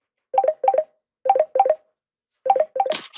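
A telephone is dialed by keypad: short electronic tones in quick clusters with pauses between groups, then a brief noisy burst at the end.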